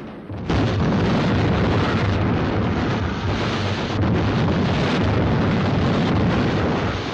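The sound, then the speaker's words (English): Heavy artillery shells exploding around a ship under bombardment: a dense, loud, continuous roaring rumble that surges in after a brief quieter opening and holds steady to the end, with no separate blasts standing apart. “The Amethyst continues to be bombarded with heavy artillery fire as it negotiates a steady path through the exploding shells.”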